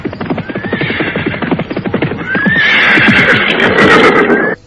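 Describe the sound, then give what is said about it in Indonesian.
Horses gallop at speed, a group of mounted riders travelling through the night, with a rapid, loud drumming of hooves. A long whinny rings out over the hoofbeats in the second half before the sound cuts off abruptly. “Mereka berkuda bagaikan terbang menembus keheningan malam.”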